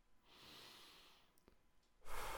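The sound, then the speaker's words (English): A slow, deep breath drawn in through the nose gives a long, soft, airy hiss. After a short pause comes the start of a stronger exhale out through the mouth. Quiet, with no talk. “let's take some deep breaths and build another right choice on our stack of right choices. Breathe in through your nose, out through your mouth.”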